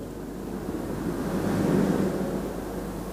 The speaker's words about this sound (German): Eine Wassersäule, die Katarakte.